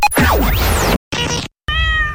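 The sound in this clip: Cat meowing in an advertisement for a veterinary flea-and-tick tablet for dogs and cats: gliding whistle-like sweeps and a brief noisy burst, separated by silent gaps, lead into one short, clear, tonal meow at the end.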